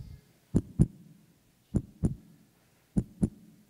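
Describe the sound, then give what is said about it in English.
A heartbeat plays alone: three clear double thumps, each a low lub-dub pair, evenly spaced in a slow, steady rhythm with quiet gaps between. “He's hearing the giant's heartbeat”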